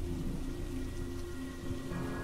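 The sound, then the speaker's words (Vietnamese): Heavy rain falling in a steady, dense hiss under a dark sky, continuous and even throughout with no distinct breaks. “Bầu trời đen kìn kịt, cơn mưa mỗi lúc một lớn.”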